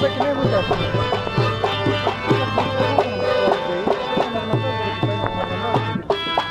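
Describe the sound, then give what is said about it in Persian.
A band plays music at Kabul's Chaman-e Huzuri for the Afghan Independence Day celebration, with a steady, repeating rhythmic pattern under sustained melodic tones, loud and without speech. “این صدای گروه موسیقی است که در چمن حضوری کابل به مناسبت جشن استقلال افغانستان پخش می شود.”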